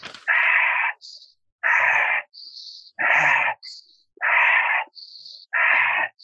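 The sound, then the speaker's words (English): Breathing in through the nose and out through the mouth, five slow cycles of loud, breathy exhales alternating with thinner, faintly whistling inhales, each breath clearly separated by short pauses. “In through the nose, out through the mouth.”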